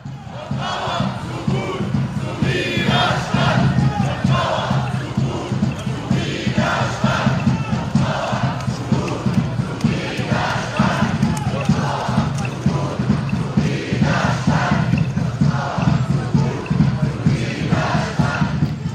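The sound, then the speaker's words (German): Demonstrators in Oldenburg chant in unison at a protest march, many voices repeating short rhythmic calls again and again over a steady crowd murmur. “So klang es gestern auf der Demonstration in Oldenburg für Lorenz A.”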